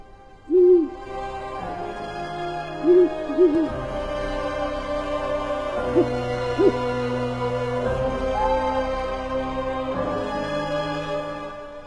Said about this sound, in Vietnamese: có cái con cú mèo ở đâu, nó bay đến, nó đậu ngay cánh cửa trong nhà, nó kêu thất thanh 7 tiếng.